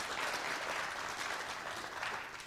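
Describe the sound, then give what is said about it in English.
Congregation clapping during a Sunday church service, a thick, even burst of many hands applauding together, steady and sustained throughout without any talk. “You can clap.”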